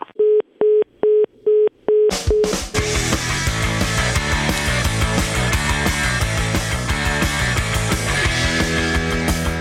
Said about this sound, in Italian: Allora, abbiamo provato a richiamarlo, sentite.